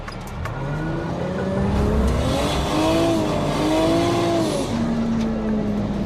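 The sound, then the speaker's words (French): A car being drifted, its engine revving loud and steady, the engine note climbing and wavering over a continuous roar without a break. “j'arrive vite, je prends de la vitesse au dernier moment pour qu'elle ait de l'inertie. Je mets un petit coup de volant et freine un peu tout de suite en appuyant sur l'embrayage.”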